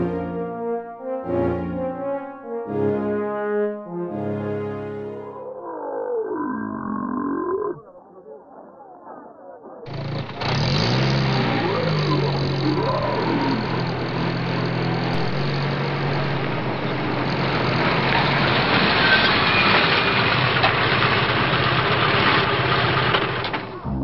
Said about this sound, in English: Very good, sir. Sergeant, bring the Humvee around.